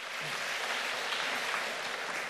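Audience applause at a community governance event, dense steady clapping from many hands, loud and even throughout.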